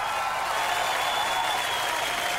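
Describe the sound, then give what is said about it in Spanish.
Applause from an audience welcoming guest performers, a dense, steady wash of clapping that holds at an even level without pauses. “Hay que recibirlos con un tremendo aplauso, una tremenda ovación, ya que ellos se lo merecen, ¿eh? Así que de inmediato vamos a los aplausos para recibir”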